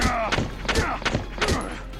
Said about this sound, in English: Haynes got shot. He hardly took any damage from the scout.